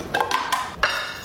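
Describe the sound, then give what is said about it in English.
Utensils clink against a bowl in an ASMR video of making a salmon rice bowl with mayo, hot sauce, soy sauce and avocado: a few light, crisp taps in quick succession. “That sound you're hearing is the sound from the TikTok. We should describe the bowl a little. It's a very simple combination of salmon and rice, some mayo, some hot sauce, some soy sauce, avocado,”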